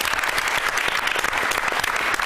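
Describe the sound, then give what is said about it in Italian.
Audience applause welcoming a guest, a priest who directs a diocese's youth ministry, to an event: dense, steady clapping from many hands, even in loudness and continuing throughout without voices. “Lo accogliamo con un applauso.”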